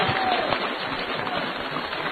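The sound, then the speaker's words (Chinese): Audience applause fills the whole stretch as a thick, even wash of many hands clapping, with no break or swell. “我想各位该鼓掌了。”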